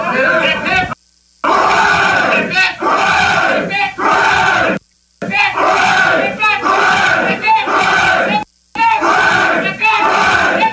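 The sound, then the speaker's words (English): A crowd cheers and chants "hip hip hooray" after a Michigan State game: loud massed shouting in several long sustained bursts, each broken by a brief silent pause. “This is the hip hip hooray.”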